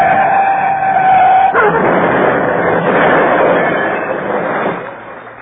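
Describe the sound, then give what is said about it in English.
Steady rushing roar of a car driving fast downhill on a shiny, slippery road full of sharp curves. The engine and tyre noise holds loud, then fades toward the end. “But I drove on south, downhill into the valley. The road was full of sharp curves and shiny under my headlights and very slippery.”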